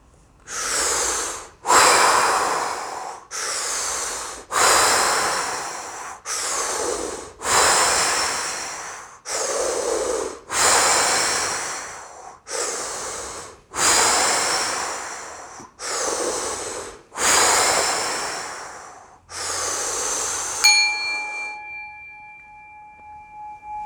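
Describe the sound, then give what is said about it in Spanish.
Deep breaths drawn in and pushed out only through the mouth during a guided breathing exercise, many long airy inhales and exhales in steady alternation, then a sustained chime rings out at the end. “Y empezamos. Recuerda, inhala y exhala únicamente por la boca.”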